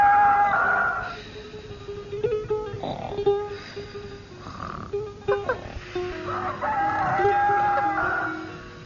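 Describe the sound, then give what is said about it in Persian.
A rooster crows in the early morning, with a long harmonic crow at the start and another near the end, and softer irregular noises between them. “صبح زود خروس شروع به خوندن کرد.”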